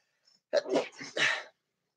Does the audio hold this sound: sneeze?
yes